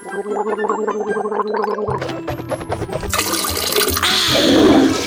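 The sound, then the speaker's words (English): Gargling with Pistarine mouthwash at a bathroom sink: a steady bubbling gurgle for about three seconds, then a loud rush of running water that swells toward the end. “start each morning at the bathroom sink with a mouthful of Pistarine.”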